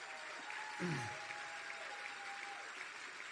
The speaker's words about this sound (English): A round of applause for Ileana Strauss.